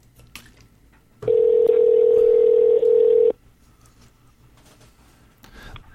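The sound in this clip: A telephone ringback tone sounds as an outgoing call rings through: one steady, buzzing tone of about two seconds, then quiet.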